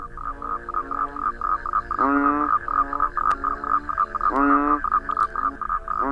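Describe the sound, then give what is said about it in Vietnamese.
Frogs croaking in the night in the distance, a continuous chorus of loud, pulsing, throaty calls, with a couple of longer, stronger croaks standing out. “Màn đêm tĩnh lặng, chỉ có tiếng ếch nhái ì ụp mà không có bóng người nào cả. Tiếng ếch nhái đằng xa xa nghe đến não cả ruột.”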